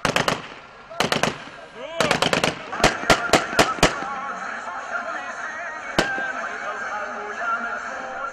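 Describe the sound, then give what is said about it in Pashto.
Armed rebels fire celebratory gunfire to welcome evacuees from Aleppo arriving in Idlib: a few short rapid bursts, then a run of single sharp shots and one more isolated shot, with voices in the background. “د بشار الاسد مخالف وسلوالو په ډزو تود هرکلی وکړ”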